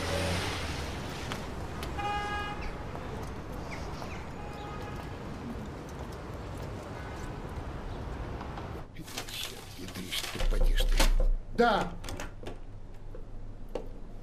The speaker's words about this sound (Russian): Подъезжает желтый автобус.